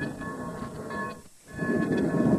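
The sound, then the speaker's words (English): Train number 11, the last Orange Belt train out, moves in with a steady rolling rumble and faint tonal whines. The rumble dips briefly midway, then grows louder toward the end. “Now we're here on February 21st, and this is actually the last train out. This is number 11 that's moving in to pick up the Orange Belt”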